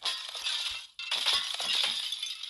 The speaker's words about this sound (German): Es ist ein Bild vom Nachbarn. Weg damit. Hey, kaputt, kaputt, kaputt.